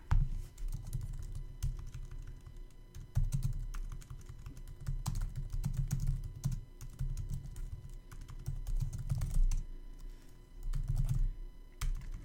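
Typing on a computer keyboard: rapid, continuous key clicks keep a brisk irregular rhythm for the whole stretch over a low hum, with short pauses now and then and no voices.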